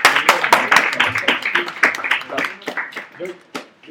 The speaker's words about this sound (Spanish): Un aplauso para Batman!